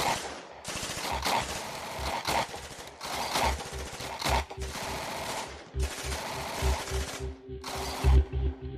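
Machine gun fire rips through a stone-walled garage: loud, dense, rapid overlapping shots in several long bursts separated by brief gaps, with no voices.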